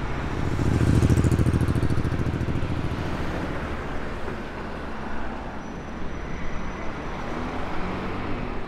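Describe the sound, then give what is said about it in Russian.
A police officer's motorcycle pulls away with a loud, rough engine drone that peaks early, then settles into a steady, slightly quieter rumble with no voices. “Страж порядка надевает шлем. Солнцезащитные очки и уезжает на своем мотоцикле.”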